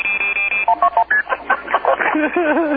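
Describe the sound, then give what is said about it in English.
Telephone keypad dialing tones from a call placed to a random international number: a steady tone, then a few short beeps, followed by talking. “I dialed fucking plus 8 random numbers, and just by fucking chance, someone had to answer the damn phone.”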